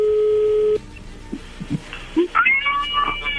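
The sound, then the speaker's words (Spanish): Phone line tones as an incoming call connects: a steady electronic tone holds for under a second, then soft clicks and short bursts lead into brief warbling electronic tones. “No haga ruido, ya entra la llamada.”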